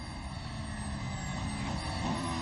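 A Force India Formula 1 car accelerating on a track, with a dense, steady engine roar and high whining tones throughout.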